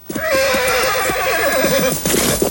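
A horse neighs in one long, loud, wavering whinny that carries through most of the moment, then a brief snort-like burst follows at the end. No other sounds compete.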